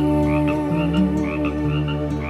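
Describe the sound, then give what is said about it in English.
Frogs croaking at night in a dense, continuous chorus of low, rhythmic throbbing calls layered with higher chirping notes, steady and fairly loud throughout. “and the coyotes you can hear, and the frogs you can hear.”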